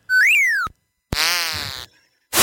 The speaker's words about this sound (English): I wanted you to hear this sound. I forgot to play in Winter Games. It's the sound of you flying off on a ski jump,